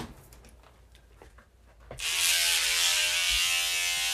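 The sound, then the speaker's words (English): An electric shaver running over a head being shaved, its loud, steady buzz starting abruptly midway and holding to the end after softer handling clicks and rustles. “Shaving my head.”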